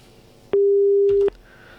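A single loud, steady telephone beep, a busy tone after a phone caller's line dropped, holds for under a second over a faint background murmur, with a brief clicking noise near its end.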